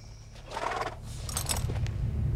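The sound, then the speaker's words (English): A horse whinnies briefly as its rider climbs off, a short, rough neigh rising out of low rumbling noise and then fading, with no talk. “climbs off his horse.”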